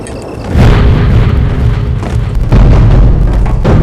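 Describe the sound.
A planted bomb explodes with a deep, heavy boom that swells into a loud, continuous low rumble, surging again partway through.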